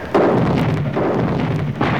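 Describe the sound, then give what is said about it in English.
Heavy artillery fires in three deep booming blasts, each rising out of a continuous low, rumbling roar that stays loud throughout. “We've got the heavy artillery set up now, Chief. All right, give the men the order to fire.”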